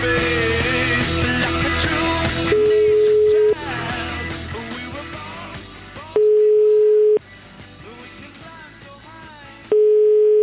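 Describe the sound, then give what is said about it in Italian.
Ringback tone on a telephone line while a call is being placed: three steady, level beeps of about a second each, spaced evenly apart, cutting in over other sound that grows quieter. “Signor Zimbaldi, proviamo a chiamarlo, va”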